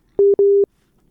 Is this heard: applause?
no